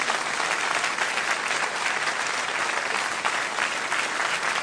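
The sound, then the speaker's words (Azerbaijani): Audience applause in a central city hall: dense, even clapping from a large crowd, loud and sustained throughout with no speech over it. “Profesoru bir də alqışlayın.”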